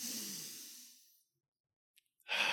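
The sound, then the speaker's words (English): A long, airy breath out that fades away over about a second, followed by silence and then the sudden start of another breath. “just for a moment, breathe in through your nose. Go. And then let it out.”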